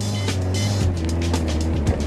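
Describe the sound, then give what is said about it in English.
Car engine running before a run up a slope in second gear, a loud, steady low mechanical drone with a few short clattering bursts on top and no voices. “But first, he needs to get the revs up.”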